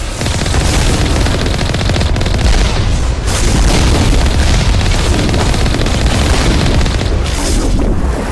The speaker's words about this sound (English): Wow, they're shooting a lot of rockets at us.